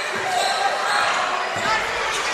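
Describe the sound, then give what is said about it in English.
Basketball being dribbled during a game, a few dull low bounces under steady crowd noise and voices. “Yeah, they're doing a little bit of a dribble weave. Right now, probably wasting some time. Just trying to tick off some clock.”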